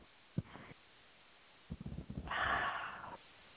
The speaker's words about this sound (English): Good breath. That's the kind that heals. That's the kind of breath you want more of, just spontaneously, just like that.